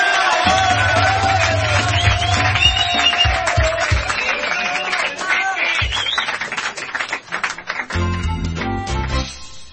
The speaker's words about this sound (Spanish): ¡Fuerte el aplauso, señor!